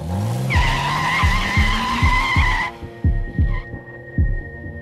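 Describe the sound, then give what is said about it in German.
A sports car drives off with its tires skidding, giving a loud sustained squeal over an engine that revs in quick rising sweeps through the gears; the squeal stops partway while the repeated revving continues. “Steig ein. Wir fahren hinterher. Ich hab einen Sportwagen.”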